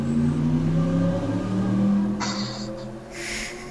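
A car revs and drives past, its engine giving a loud, steady, droning roar that lasts the whole moment.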